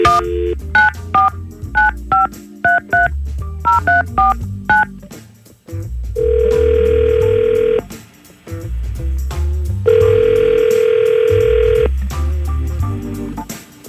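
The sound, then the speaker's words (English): Telephone keypad tones as a number is dialed for a call: a quick series of short beeping touch-tones, then two long sustained ring tones, all over a low, steady background bed. “We're going to try to call Dustin right now and see what's going on, okay? Hang on for me.”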